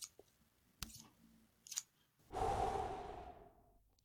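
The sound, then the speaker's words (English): Body hair being trimmed during manscaping: a few sharp snips and clicks, then a longer hissing, whirring sound that slowly fades, with no voices. “You stay still and I'll trim you.”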